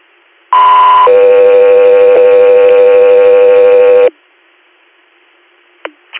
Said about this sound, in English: stand by for tones.